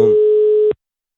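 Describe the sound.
A telephone line tone while placing a call, a single steady mid-pitched beep lasting under a second that cuts off abruptly into silence.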